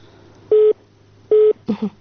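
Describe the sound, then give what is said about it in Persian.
Telephone tone after a dropped call: two identical steady mid-pitched beeps, loud and evenly spaced, followed by a short broken double blip. “فکر کنم که تماس قطع شده”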